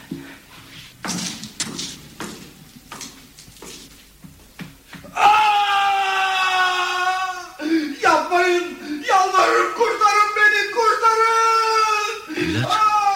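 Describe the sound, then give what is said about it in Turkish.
Agonized screaming of a man being tortured by hundreds of hungry rats in a prison cell: a few dull thuds and knocks, then long, loud, drawn-out wails and cries that rise and break, continuing to the end. “Bu ses ne? Eski Sultan Uzun Hasan'ın komutanlarından birinin sesiydi efendim. Şah İsmail onun işkenceyle öldürülmesini emretmiş. Bu yüzden hücresine yüzlerce aç fare bıraktılar.”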